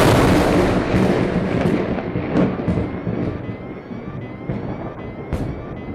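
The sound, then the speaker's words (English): Lightning strikes an airliner in flight as it nears landing at Sydney: a loud roaring rumble with several sharp crackling bursts scattered through it, easing slightly toward the end. “Mayday! We've been hit by lightning.”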